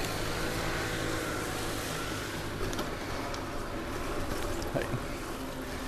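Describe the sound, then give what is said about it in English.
Weed eaters running: a steady, dense, buzzing small-engine drone that fills the whole clip at an even level, with no speech. “Uh-oh, we got some weed eaters going on. Let's see if we can avoid this.”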